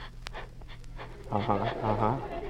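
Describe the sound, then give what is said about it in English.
A voice imitates heavy panting breath, giving a few quick breathy huffs that turn into louder voiced, rhythmic pants over a couple of seconds. “he always breathes like this.”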